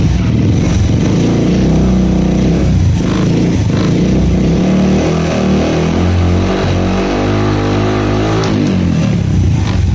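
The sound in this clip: Motorcycle engine idling steadily, then revved during a charging-system voltage check, with the engine's tone climbing in the second half before settling back. No voices accompany it.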